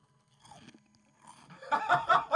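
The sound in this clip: Wet, crunchy chewing and biting as a woman eats a pickle close to a microphone in ASMR style. Soft mouth sounds and faint murmurs come first, then loud, dense crunching bursts build at the end.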